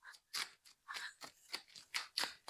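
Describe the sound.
Playing cards being handled and shuffled for ASMR: faint, crisp papery rustles and snaps in a run of many short bursts, with no talking.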